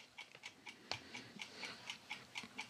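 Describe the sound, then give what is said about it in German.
An egg timer ticks in a quick, even rhythm, with many faint, sharp clicks following one another steadily and no voices over them. “Unsere Eieruhr.”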